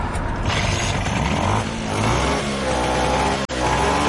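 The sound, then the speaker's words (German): A Vespa scooter engine runs and revs after a repair, with a loud, dense, continuous mechanical drone and one brief cutout near the end. “Nach knapp 2 Stunden ist das Problem gelöst. Die Vespa läuft wieder und hängt gut am Gas.”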